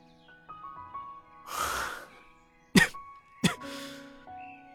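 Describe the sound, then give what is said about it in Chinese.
Muffled coughing from an injured man whose laughter catches in his throat. A breathy burst is followed by two sharp, stifled coughs and a further rasping breath, all set over soft, sustained musical tones with no talk. “薛远想笑，笑声到了喉咙就变成了闷声的咳嗽”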